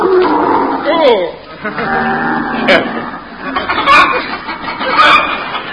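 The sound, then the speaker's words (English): Human voices imitate camel noises, making odd grunting, gurgling and warbling calls in a loud, uneven string of bursts. “We rode in silence, save for the odd noises camels are wont to make.”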